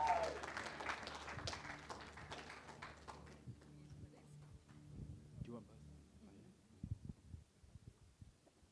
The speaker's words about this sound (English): Why don't we put our hands together and just give a really great double feature welcome to Sam and Ryan Harrison.